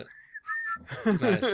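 A whistle blown as a stop signal gives two short, steady high notes, the second slightly lower, followed by a burst of voiced sound.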